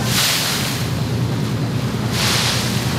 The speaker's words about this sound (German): Der oft ohrenbetäubende Lärm der Großstadt verschwindet allmählich, bis nur noch Fähre und Gisch zu hören sind.